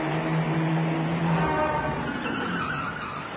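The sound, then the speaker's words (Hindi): A car drives up with steady, loud engine and tyre noise throughout that eases slightly toward the end, with no voices. “Saroj एक और car आ रही है।”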